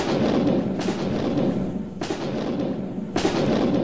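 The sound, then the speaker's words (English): Artillery fire: three deep, dull booms at roughly even intervals over a continuous low rumble, as American cannon fire into advancing British troops in battle. “artillery fired into the enemy.”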